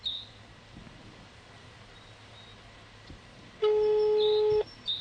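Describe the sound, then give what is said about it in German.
A single steady telephone tone, lasting about a second, sounds when rescuers call a missing man's number during a night search in Russia. Only faint background hiss surrounds it. “Sie haben wieder seine Nummer gewählt.”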